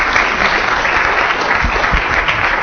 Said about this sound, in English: So these three people, Walter Cohn, Pierre Meister, and Tony Starris, deserve a big hand for having introduced attoseconds in this institute. So please congratulate everybody.